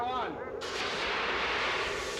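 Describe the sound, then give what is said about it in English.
A loud gunshot or cannon-like blast fired in a video game to sink a boat. It erupts suddenly after a brief quieter stretch and is followed by a sustained, broad, roaring rumble until the end. “I'm gonna try and sink it with an incredible shot with the Incredibles.”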